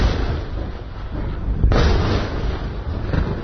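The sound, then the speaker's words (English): Explosions of missiles being intercepted over the Israeli city of Haifa: a continuous deep, loud rumbling roar with one sharper, heavier blast about halfway through, then the rumble rolling on. “The Israeli military says it's intercepted all the missiles and no casualties were reported. This was a sound over the Israeli city of Haifa.”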